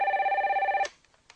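Telephone ringing during a call to the Italian emergency medical line: one warbling ring, fast-pulsed and bright, lasting under a second before cutting off abruptly, followed by faint scattered clicks.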